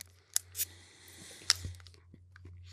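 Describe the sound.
Chewing and crunching during a live taste test of something white chocolate pistachio flavored: a few faint, crisp crunches and mouth clicks spread unevenly across the moment, with no talking.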